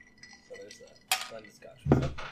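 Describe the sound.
Glasses clink in a whiskey toast: a few faint, sharp chimes over soft background clatter, with people talking quietly around them.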